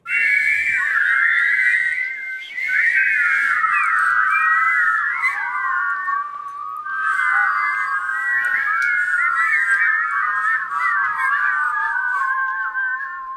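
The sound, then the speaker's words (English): Many children whistle together in a layered chorus, their bright tones weaving a tune that runs almost without a break, with one short dip early on. “Hey, really nice job whistling, you guys. Sounding great.”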